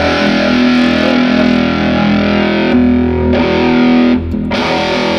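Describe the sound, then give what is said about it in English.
Heavily distorted electric guitar through a Big Muff-style fuzz and an EarthQuaker Tentacle octave pedal: a thick, buzzing, harmonically dense sustained tone that stays loud and steady for about four seconds, shifts once partway, then briefly dips before continuing. “I have this Earthquaker tentacle pedal that basically turns that Big Muff sound into like a or a fuzz octave.”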